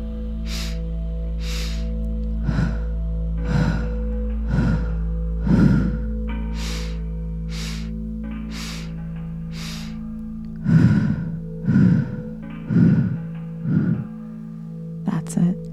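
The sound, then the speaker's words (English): Steady breaths from a guided breathing exercise, many evenly spaced puffs of air about a second apart, some fuller and louder than others, laid over a low sustained tonal drone. “And now just starting up the breath pattern when you're ready.”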